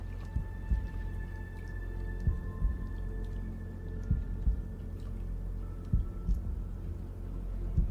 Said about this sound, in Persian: تا صدای ضربان تو حس کنم و بدونم حالت خوبه